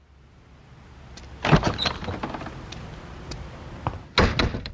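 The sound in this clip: Keys jangling and a lock being worked on the door of a business that is open, with a burst of metallic rattling and clicks followed by a second sharp clatter near the end, against quiet background.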